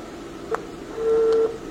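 Telephone keypad tones as a number is dialed for a call: a brief beep, then a longer steady tone, both moderately loud over a faint background hiss.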